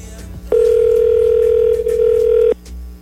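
A telephone ringback tone sounds on a call while waiting for someone to answer: a single steady, mid-pitched electronic tone about two seconds long, loud and alone before it cuts off.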